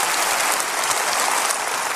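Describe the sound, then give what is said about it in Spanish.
Dense applause from a church audience at Lakewood welcoming first-time visitors, a loud, steady wash of many hands clapping that continues throughout without a break. “Denles el mejor aplauso que usted pueda darles a ellos, por favor.”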